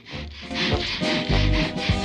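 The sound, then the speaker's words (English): A hand saw rasps through a wooden door in quick back-and-forth strokes, a steady rhythmic scraping with no talk. “Later, Wallace is sawing the door again, this time with Gromit replacing the broken sawhorse.”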